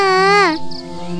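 A young girl crying in a high, wavering wail that drops sharply in pitch after about half a second, then trails into a lower, quieter sustained tone.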